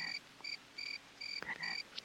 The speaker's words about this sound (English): There are frogs in the lake.